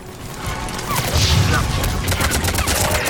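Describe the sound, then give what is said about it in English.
Dense, loud gunfire from a sci-fi shooter video game, with alien soldiers on hut rooftops firing down at marauders: a continuous rattling barrage of overlapping shots with no clear gaps. “Alright, so there's Turians up on top of the little huts here. Shooting down at the marauders.”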